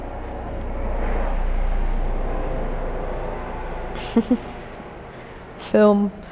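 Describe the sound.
An aeroplane sound effect: a broad engine rumble swells to a peak and then slowly fades, with a few brief sharp tonal sounds after it dies down.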